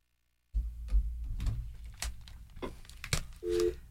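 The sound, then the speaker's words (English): A telephone line tone from a call picked up on speakerphone: a short, steady low tone near the end, after a stretch of muffled line noise. “Using the new technologies of speakerphone, I was able to pick up that call, and we got a request.”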